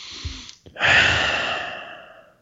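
One deep breath: a brief intake is followed by a long, loud, airy exhale that slowly fades away, heard alone.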